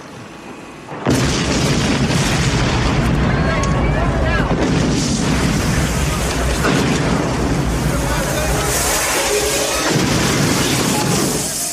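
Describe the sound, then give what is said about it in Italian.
An explosion bursts in suddenly after about a second and becomes a loud, sustained roaring rumble that continues with little change for around ten seconds. “Bel colpo. Via, presto! Sta scoppiando tutto!”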